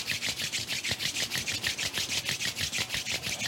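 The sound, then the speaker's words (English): Palms rubbing briskly together, a steady run of many quick swishing strokes in an even back-and-forth rhythm, soft and dry with no voices. “Bring your hands now to touch in front of your heart and just start to rub your hands together. Feel the warmth building in between your palms.”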